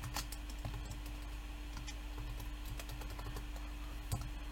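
Typing on a computer keyboard while a description is entered into a form: a long run of soft, irregular key clicks over a steady low hum.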